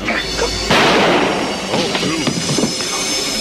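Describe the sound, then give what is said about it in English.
A single sudden gunshot from the Dallas season-finale scene in which J.R. Ewing is shot, a loud sharp blast followed by people talking. “You're not going to take out J.R. Ewing with just one shot.”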